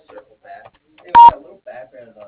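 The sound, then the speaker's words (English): A voicemail message tone: one short, steady mid-pitched beep, brief and loud, with faint voices just before and after it. “If you'd like, please leave a message after the tone”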